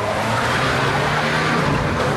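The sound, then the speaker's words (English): Tire squeal of a blue Ford Transit van skidding to a halt in a car park: a loud, steady screech over a rough rumble, holding for about two seconds without a break. “the van squeals to a halt in the middle of the car park.”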